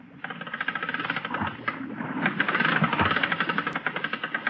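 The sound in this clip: A winch runs on deck, hauling the hook back up during a diving job: a steady mechanical, engine-like drone with fast rhythmic pulsing that grows louder and more insistent in the second half.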